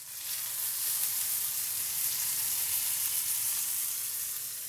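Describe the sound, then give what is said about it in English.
Steak sears in a hot cast iron skillet slicked with ghee, giving a loud, steady, hissing sizzle with no talk. “You sear it off in a hot cast iron skillet slicked with ghee to give it that perfect, delicious crust.”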